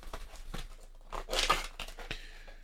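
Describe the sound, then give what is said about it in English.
Faint crinkling and tearing as a SLATE microphone box and its packaging are opened, with soft rustles that swell into a louder crumple midway. “There's a card with each one of these boxes. Okay. So I'm going to open this up if I can.”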